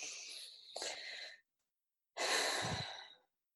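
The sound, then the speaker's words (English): Deep, slow breaths during a guided meditation: two long, airy breath sounds, each about a second long, separated by a stretch of silence, soft and alone with no talk. “I like to do this with my eyes closed, but you can keep yours open if you like. Take a few deep breaths.”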